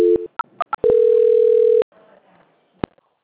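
Telephone tones during a call transfer: a short tone, a few brief beeps, then a steady tone lasting about a second, followed by faint line noise and a single click.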